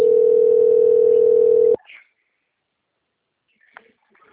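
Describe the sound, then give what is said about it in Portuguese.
A phone rings with an incoming call as one steady electronic tone that holds for nearly two seconds and then cuts off abruptly, leaving near silence broken by a few faint, small sounds. “Deixa eu ver se é banco, tá me ligando.”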